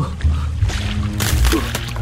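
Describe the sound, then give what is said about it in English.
Water sloshing and splashing as a person wades across a cold, shallow river, a few rough bursts of splashing over a low, steady rush. “A good thing it's not deep. I shall have to wade across. Oh, it's so cold.”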